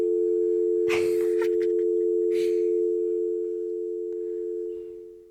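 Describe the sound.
A steady telephone line tone hums as a call is put through, held unbroken for about five seconds. Two brief noisy crackles break in near the start, and the tone fades slightly toward the end.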